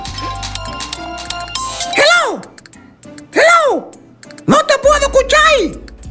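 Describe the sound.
A phone ringtone sounds over background music as a few bright tones each rise and fall in pitch. The tones come in separate bursts and are fairly loud.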